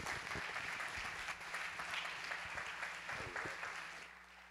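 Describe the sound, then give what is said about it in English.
Church audience applauding to welcome a pastor to the pulpit, a dense, steady wash of many hands clapping that holds evenly for about four seconds, then thins and tapers off at the end. “So would you put your hands together and welcome Pastor Matt Richard.”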